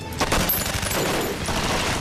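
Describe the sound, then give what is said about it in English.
Rapid gunfire from soldiers shooting at a basilisk outside a nuclear power plant, a dense, continuous barrage of overlapping shots that stays loud and unbroken throughout. “Finding itself under fire, it heads through a doorway into the nuclear power plant.”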